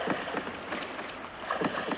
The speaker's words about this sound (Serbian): Tako su se oni vozili u čamcu za okupljenim mislima i vesla, kao pucni, sve tucala su u njihovim rukama.